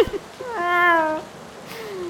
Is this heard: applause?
no